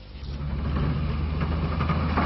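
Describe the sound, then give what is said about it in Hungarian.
A snowplow engine runs without pause while clearing deep snow in southern Romania, a steady low droning rumble with a constant pitch and even loudness and no voices. “Hiába dolgozik megállás nélkül a hókotró, kocsival szinte lehetetlen haladni Románia déli részén.”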